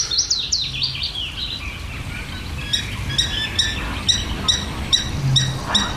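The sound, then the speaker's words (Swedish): A willow warbler and a garden warbler sing, opening with a high, descending warbled phrase followed by a run of repeated sharp chirps over a soft, steady background. “Lövsångaren kör ju för fullt. Och sen är det en trädgårdssångare som även har vaknat här.”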